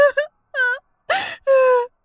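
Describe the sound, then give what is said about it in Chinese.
A woman cries and wails in four drawn-out, high, quavering sobs separated by short silent gaps; the last cry is the longest and steadiest. “好了，别哭了”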